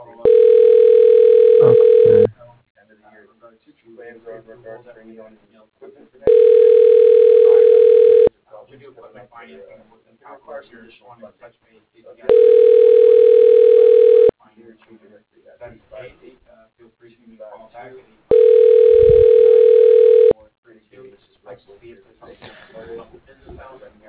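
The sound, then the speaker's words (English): Telephone ringback tone as a call is put through to an office extension: four long, steady mid-pitched tones of about two seconds each, evenly spaced, with faint voice-like sounds in the gaps between them. “Dialing Debbie Hauk. Extension 107.”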